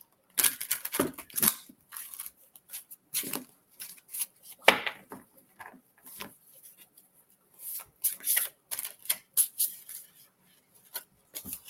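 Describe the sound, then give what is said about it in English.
Playing cards being handled for a word-of-wisdom card reading: many brief papery riffles, flicks and rubs in irregular clusters, separated by short quiet gaps, moderately loud with no talking. “Struggling with these cards. For some reason, I'm all thumbs.”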